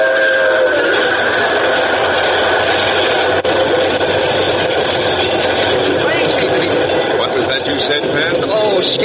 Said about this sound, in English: Yeah, it's a 464 type locomotive. Looks like a Hudson.